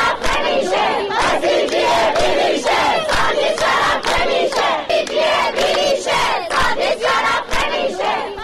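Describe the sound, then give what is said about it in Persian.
Students chant together at a university protest rally in Kermanshah, loud rhythmic crowd shouts rising and falling in steady repeated bursts with no pause throughout. “صدای دانشجویان دانشگاه رازی کرمانشاه رو بشنوید.”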